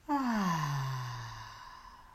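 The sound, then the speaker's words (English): A deep breath let out as a single long voiced sigh during a guided breathing exercise. It starts abruptly, falls steadily in pitch and fades slowly, with no talk. “One last breath in together. Breathe in and out.”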